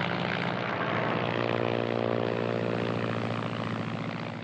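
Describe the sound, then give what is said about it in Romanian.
Propeller airplane coming in to land, its engine a steady, loud droning hum with no talk, easing slightly quieter toward the end. “A aterizat! Aterizat! Extraordinar! A executat aterizajul ca un pilot încercat.”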